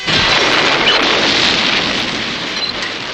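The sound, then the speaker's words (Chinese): An explosion of a fuel-laden train carriage, a radio drama sound effect, as the fuel catches fire. A loud, dense roar holds steady for about three seconds, then eases slightly without dying away. “油料着起来了，车厢爆炸了，大火燃遍四野，油桶四处横飞”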